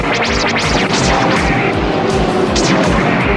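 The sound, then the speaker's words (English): Weapons fire and explosions from a M.A.S.K. cartoon battle as Venom and MASK forces exchange fire at full force: a loud, dense, continuous barrage of blasts with sweeping whooshes over it. “Venom is going full force in one direction, and Mask is coming full force in the other direction, and they're just firing everything they have at each other.”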